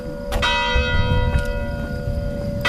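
A church bell rings from a bell tower near a chalet. A few clear strikes are each followed by a long, sustained metallic hum that carries between them, and no voices are heard.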